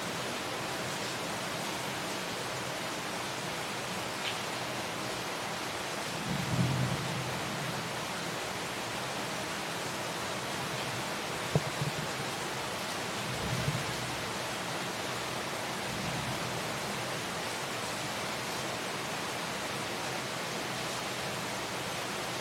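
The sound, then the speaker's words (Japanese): Heavy rain during a thunderstorm in Singapore's rainy season, a dense, steady rushing hiss that stays even and unbroken throughout. “雷を伴う雨なんですね”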